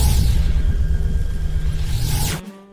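A ray blast is shot from someone's hands: a loud, sustained rumbling whoosh that ends in a sweeping swish and an abrupt cutoff.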